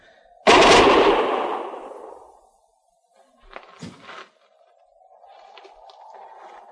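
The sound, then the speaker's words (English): Gunfire from men shooting down from a rim: one loud blast whose rumbling roar trails off for about two seconds, then a softer, ragged cluster of shots and a faint lingering hiss. “We've stopped firing. We've turned him back.”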